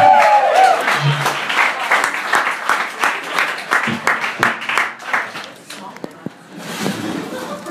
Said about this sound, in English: You guys, please give another warm welcome to Carl Faben. Carl Faben!